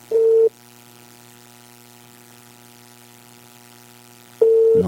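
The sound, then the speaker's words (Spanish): Ringback tone of a telephone call to a doctor that goes unanswered: two short tone bursts about four seconds apart, with a faint steady line hum in between. “No contesta. No contesta el doctor Lozano.”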